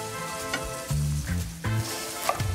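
Onions browning in a frying pan sizzle with a steady hiss, joined by brief stirring scrapes and faint tonal hums.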